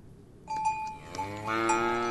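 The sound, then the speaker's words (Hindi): A dairy cow lows in one sustained, harmonic call that starts about halfway through and holds steady to the end after a quiet opening. “अरे वाह, तुम्हारी गाय तो इस बार खूब दूध दे रही है।”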